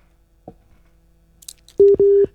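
Busy tone after a phone call cuts off: a few faint clicks, then two loud, steady mid-pitched beeps in quick succession, the second slightly longer.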